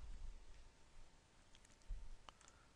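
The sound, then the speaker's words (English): A mouse click on an OK button: a single faint, short tick near the end, over a low hum of background noise. “And I'm going to go ahead and click on OK.”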